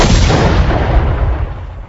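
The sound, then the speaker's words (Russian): An explosion booms from behind during fighting, a loud dense rumble with broad crackling noise that holds for about two seconds and slowly thins out. “За спиной прогрохотал еще один взрыв.”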